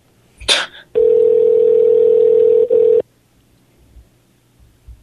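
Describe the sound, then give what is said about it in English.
Telephone placing a call: a brief high click, then a steady mid-pitched tone lasting about two seconds with one short dip, followed by near silence and faint low noise. “Trying to get this last person to answer the phone.”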